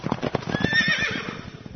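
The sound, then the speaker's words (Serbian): A horse whinnies with a rising, wavering neigh near the middle over a rhythmic clip-clop of hooves. The sound is faint and muffled throughout. “ovaj konj. Beo, jak, brz, hitar, hitar, snažan.”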